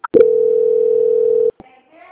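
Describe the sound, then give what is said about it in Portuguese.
A telephone line tone sounds during a call transfer: a single steady, pure electronic tone holds for over a second and then cuts off abruptly, followed by faint line clicks and murmurs. “eu vou transferir agora para a Michelle fazer as últimas confirmações, tá? Só um minutinho. Tá ok. Obrigada. Transferência.”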